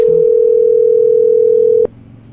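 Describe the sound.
Telephone dial tone heard while placing a call: one loud, steady, mid-pitched tone holding for nearly two seconds, then cutting off abruptly and leaving only a faint low hum.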